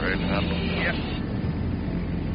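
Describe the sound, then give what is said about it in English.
A DC-3 airliner lands on a runway after breaking through cloud, giving off a steady, heavy engine drone throughout. A voice is briefly audible over the noise near the start. “break through the clouds and slide the DC-3 right down the middle of the runway”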